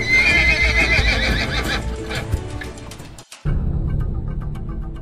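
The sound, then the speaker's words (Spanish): Horses approach, with loud, repeated whinnies over a clatter of hoofbeats. A brief break follows, then the hooves keep clattering more quietly. “Dicen que solo con escuchar sabía cuántos caballos se acercaban.”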